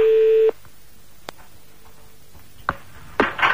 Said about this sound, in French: on y va, on appelle une troisième ville.